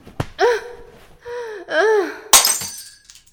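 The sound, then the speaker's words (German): A glass bottle falls and breaks with one sharp, bright shattering crash near the end. Before it come a couple of voiced gasps and groans, and a short tinkling tail follows the impact. “Ich konnte die Flasche nicht mehr rechtzeitig auffangen.”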